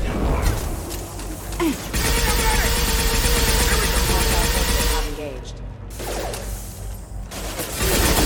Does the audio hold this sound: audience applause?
no

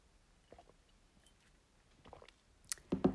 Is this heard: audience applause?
no

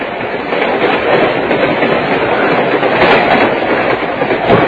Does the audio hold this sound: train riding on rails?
yes

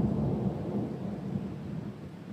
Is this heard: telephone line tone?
no

